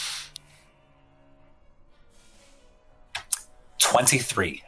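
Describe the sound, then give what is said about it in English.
Physical dice are rolled by hand during a tabletop role-playing game: a few sharp clicks, then a brief, loud clatter across the table. “I have a feeling the dice roll is going to screw me on this one, so I'm going to go for my actual dice.”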